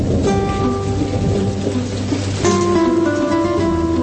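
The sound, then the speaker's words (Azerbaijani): Summer rain falling in a steady, dense hiss that carries on loudly and evenly for the whole stretch. “Heç görmüşsünüz mü yay yağışını?”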